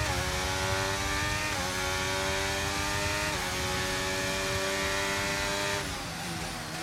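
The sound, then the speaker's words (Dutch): A Formula 1 car in the F1 video game laps the Albert Park circuit, its high, harmonic engine whine climbing steadily through the gears with three brief dips at the shifts, loud and continuous. “nemen wij je even virtueel de baan op door middel van de F1-game. Albert Park is sinds 1996 gastheer van de Formule 1”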